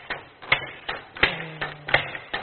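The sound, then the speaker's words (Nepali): A single factory machine strikes in a quick, regular series of sharp mechanical knocks. A faint low hum runs briefly underneath partway through. “यो ठ्याक्क एउटा मेसिनले double हान्छ”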